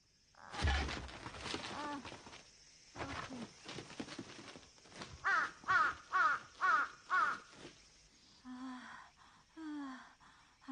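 A crow caws harshly and loudly in many calls. Scattered squawks give way to a rapid, rhythmic run of raspy caws, followed by a few rougher cries.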